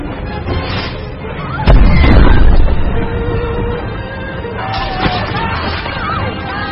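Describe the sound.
A cannon fires on Lord Shen's order in an animated battle, with a heavy, low boom that rumbles for about a second over a chaotic din of commotion and clatter.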